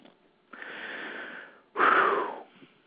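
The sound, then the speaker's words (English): A person takes a deep breath: two long, airy rushes of breath, the second louder and rougher with a slight wheeze, then quiet, with no talking. “Okay. Let's take a breath.”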